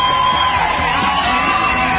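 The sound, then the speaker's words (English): Crowd cheering with yells and whoops in a dense, steady roar that holds at an even level for about two seconds. “Yeah, who doesn't applaud when you say the word gold?”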